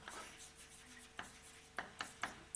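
Writing on a blackboard during a lecture: faint scratchy strokes broken by several sharp taps at irregular intervals, with no talk.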